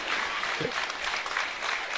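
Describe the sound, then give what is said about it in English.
Steady clapping from a home fan section at a women's basketball game, a dense, even patter of many hands that runs continuously at moderate loudness for the full two seconds. “an appreciative Western fan section here clapping”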